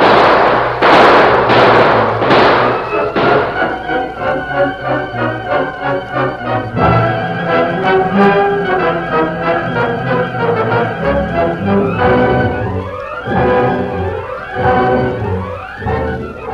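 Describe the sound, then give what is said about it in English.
Gunfire as a gang fires on a man: a few sharp, loud bursts crack out at the start, then an orchestral music score carries on steadily underneath. “They're firing on him. Open up. There's the critters down below. Shoot at the gun flasher. Let him have it.”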